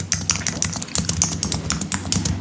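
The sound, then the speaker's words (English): A woman types rapidly on a computer keyboard, producing a dense, steady clatter of crisp key taps with no pauses and no talking. “This is woman on a keyboard while chewing gum loudly.”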